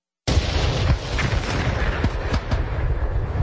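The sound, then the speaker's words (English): Artillery guns fire on the last day of World War I in a dense, rumbling barrage, with several sharp booms standing out above continuous low roaring noise. “the 11th hour of the 11th day of the 11th month when the guns fell silent. I want you to hear this. Listen to the guns. Let's go ahead and play the audio clip.”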